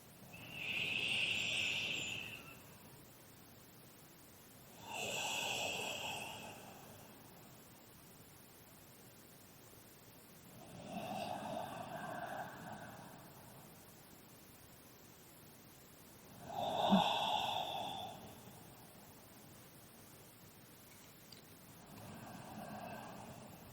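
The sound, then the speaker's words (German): Slow, deep breathing during a guided gratitude meditation: soft, airy swells of breath rise and fade every several seconds, faint and unhurried, with no talking in between. “dann nimm auch mit der nochmal 3 tiefe Atemzüge.”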